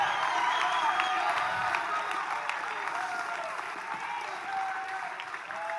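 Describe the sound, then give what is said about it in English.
An audience at a live church service claps and shouts in praise, producing a steady, dense wash of applause with scattered cheers that holds at an even, moderate level throughout. “Clap those hands, all ye people. Give God a mighty shout. Make a joyful noise.”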